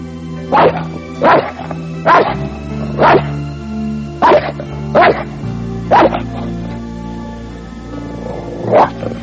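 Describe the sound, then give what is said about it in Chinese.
A dog barks, a series of about seven deep, loud barks spaced irregularly, with a longer pause before the last one, over a low steady hum. “走开，狗狗，去去，走开。”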